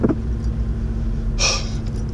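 A car driving on a road on the way to work, a steady low rumble throughout with a brief hiss partway through.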